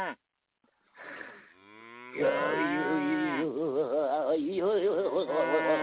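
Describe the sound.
A cow moos on a farm: a long, wavering, throaty low that swells after a few brief scuffing noises and stays loud for several seconds, its pitch wobbling up and down.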